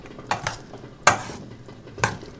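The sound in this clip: Sliced cucumbers are gently stirred in a bowl, giving a few soft wet swishes and light clicks spaced apart in an otherwise quiet kitchen.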